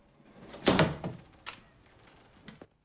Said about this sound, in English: He slides the door shut.